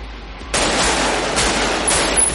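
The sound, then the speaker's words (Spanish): Gunfire as a man opens fire while holding a young girl during a chase through a plaza in the 1995 thriller film Heat. A quiet lead-in breaks into a loud, sustained rattling barrage, with further sharp bursts near the end. “Michael coge a la niña y abre fuego contra ellos.”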